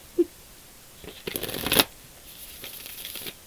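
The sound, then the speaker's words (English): Cards are handled as one is drawn from a deck of affirmation cards: a faint tap, then short papery riffling and sliding bursts that peak sharply before trailing into softer rustles. “I'm gonna draw an affirmator card. Because it's been a while.”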